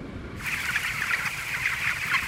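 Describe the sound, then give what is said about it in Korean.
Dense, continuous chatter of many chickens in an automated poultry house that raises a million birds a year. The high, steady mass of clucking and calling stays even in loudness from just after the start to the end. “리처드슨 씨는 이런 최신 시설에서 1년에 100만 마리의 닭을 키운다고 하네요.”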